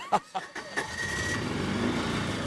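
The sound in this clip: An all-terrain vehicle engine on an island tour, a steady rumbling drone that settles in after a few short, sharp sounds at the start.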